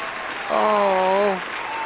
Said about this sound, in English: So we're going to give you a great big round of applause for being our special guest this evening again.